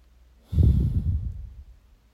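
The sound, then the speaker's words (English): A single deep breath taken during a guided relaxation, a soft, airy rush that starts abruptly, swells, then slowly tapers away against near silence, with no talking. “Now just continue to breathe deeply, letting those statements find a comfortable place to settle.”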